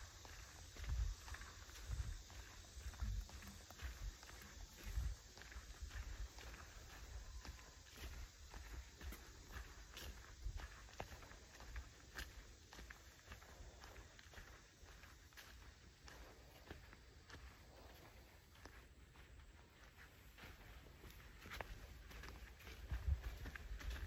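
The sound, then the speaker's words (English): Footsteps crunch steadily along a dirt footpath through trees at Ichetucknee Springs in Fort White, a long run of many even, regular steps over a constant background hiss, with no voices. “And we're moving along the dirt footpath now, through the trees, back into the shade.”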